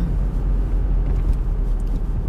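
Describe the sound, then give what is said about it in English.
Steady low engine and road rumble inside a car driving home, a dense, even drone with no breaks. “So now I am in my car on the way home.”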